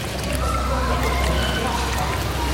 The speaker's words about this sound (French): Tout simplement marcher dans l'eau et voir un peu la profondeur, comment ça évolue. Alors on y va, tranquille.